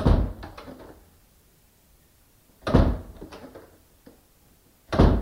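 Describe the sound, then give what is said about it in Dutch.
An animal's cage door is opened and shut. Three loud metallic bangs are each followed by a short clattering rattle, with quiet gaps between them. “We hebben trouwens ook een opname van de echte deur. We kunnen dus vergelijken.”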